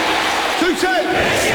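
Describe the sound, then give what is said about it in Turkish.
A large crowd cheers and chants together, a loud, continuous wall of voices with a few rising and falling yells standing out over the roar. “Sayın seyirciler, konu 5G hızı ve kalitesi ise onu kalabalıklara soracaksınız. Muazzam kalabalık.”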